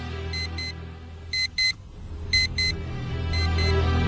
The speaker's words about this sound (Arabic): ولكن صوت المنبه بيطردني اكتر ما بيطردني الوحوش.